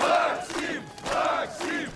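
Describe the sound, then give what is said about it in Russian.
Crowd chanting and cheering as a man walks through with raised arms: many loud voices surge in rhythmic, repeated swells of shouting. “Макс идет сквозь скандирующую толпу с поднятыми вверх руками.”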